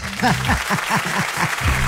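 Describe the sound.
Applause running under a person talking: steady clapping stays in the background while a prominent voice speaks over it.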